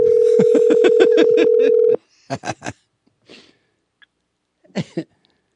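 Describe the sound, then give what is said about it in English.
A telephone dial tone sounds after a disconnected call, steady and loud for about two seconds before cutting off abruptly, followed by a few short bursts of noise and faint clicks. “We keep getting disconnected.”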